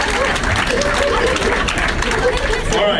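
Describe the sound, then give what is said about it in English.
Audience applause for a game contestant: dense, steady clapping runs loud and unbroken for about three seconds, with crowd noise mixed into the clapping. “Thanks for playing, dude. Let's hear it for him, everybody. Good job.”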